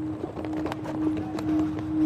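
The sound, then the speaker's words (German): Footsteps of several people walking along cobblestone streets in a city's old town: many irregular, sharp clicks and taps under a steady low hum. “Die vier laufen durch die Innenstadt von Prag. Fast überall Kopfsteinpflaster.”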